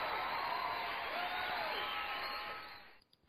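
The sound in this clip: Canned audience cheering set off by a button: a dense, steady roar of crowd noise with whoops that holds for a few seconds and then fades away near the end.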